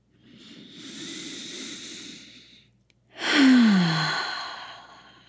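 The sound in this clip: Slow, deep breathing during a guided breathing exercise: first a long, soft, airy breath, then a louder exhale carrying a low voiced sigh that falls in pitch and gradually fades out.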